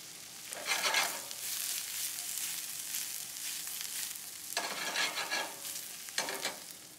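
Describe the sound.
Chanterelles, onions and garlic sautéing in butter over a medium flame: a steady sizzle with a few louder bursts of stirring and tossing in the pan.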